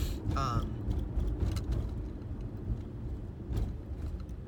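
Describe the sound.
A car is being driven, producing a low, steady road and engine rumble from inside the vehicle. The drone stays fairly even, with a short vocal sound near the start.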